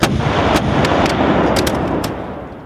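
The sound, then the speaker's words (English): U.S. artillery firing in a battle against Mexican lancers: a dense, loud, continuous roar of gunfire broken by many sharp, cracking reports at irregular intervals, easing slightly toward the end. “Next, U.S. artillery join the fray, forcing the Mexican lancers to take flight.”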